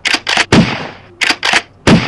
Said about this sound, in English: Hurry, get the shotgun and shoot it.